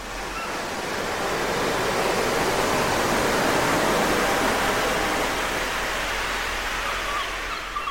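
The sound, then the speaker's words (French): A steady, rushing wash of ocean waves fills the whole stretch at an even, moderately loud level; no distinct seagull calls stand out above the surf. “Je crois que je vais ajouter un peu plus de mouettes. Je peux aussi ralentir les vagues.”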